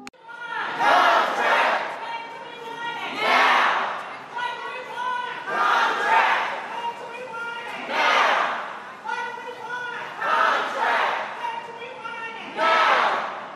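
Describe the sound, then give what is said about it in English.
A crowd of protesters in red shirts chants for fair pay at Dallas-Fort Worth Airport, Terminal D. Loud collective shouts rise in regular bursts about every two seconds, with quieter murmuring between them. “You are at the Dallas-Fort Worth Airport, Terminal D, with a bunch of people wearing red shirts, and we are demonstrating for fair pay.”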